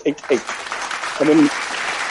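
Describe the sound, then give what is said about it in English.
Studio audience applause, a dense wash of clapping that runs through the whole stretch while voices talk over it. “sorry, the studio audience got very carried away there. Very well done, very well done.”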